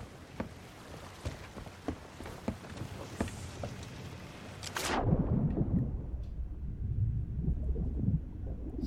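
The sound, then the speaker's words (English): Ship cannons firing from both sides into the water in a video game: faint thuds, then a loud booming blast that gives way to sustained low rumbling. “They're fighting something in the water over there. Because their cannons are going off of both sides,”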